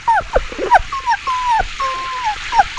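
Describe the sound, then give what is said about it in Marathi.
A soaked, shivering puppy whimpers outside, giving a string of thin, high whines that slide downward, some drawn out and some clipped short, with a few soft yelps between them and no talk. “काय आहे ग बाहेर? मावशी, कुत्र्याचं पिल्लू.”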